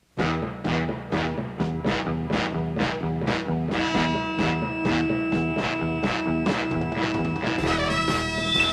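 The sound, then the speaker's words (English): Animated superhero cartoon theme music drives forward with punchy orchestral stabs on a steady, quick pulse. Sustained brassy tones join midway, and the arrangement grows busier and brighter toward the end, with no voices over it. “He also did the theme for the Super Friends.”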